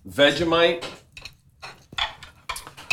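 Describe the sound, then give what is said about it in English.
Cutlery clinking against a plate as lamb lollipops are cut in half, with several short, sharp taps and scrapes of metal on crockery following a brief stretch of a voice talking. “All right, you're going to cut them in half. You can cut them in half.”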